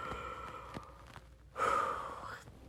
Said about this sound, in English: Take another deep breath. So take another one with me.